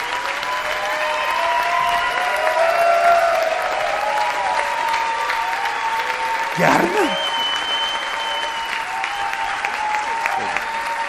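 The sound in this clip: A crowd claps in honour of someone's wife at a gathering. The clapping is sustained and dense across the whole clip, with voices and tonal calls above it and a short louder burst past the middle.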